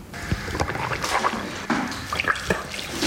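Dental suction and mouth rinsing after blue plaque dye at a tooth cleaning: continuous hissing, gurgling water noise with scattered clicks and slurps, no voices.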